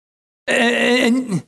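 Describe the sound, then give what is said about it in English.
A single voice lets out a drawn-out, moaning groan that imitates anguished groaning, holding a low pitch before dipping at the end. “Paul says all of creation is groaning together as in the pains of childbirth. Not just one voice, not just two voices, but all of us together.”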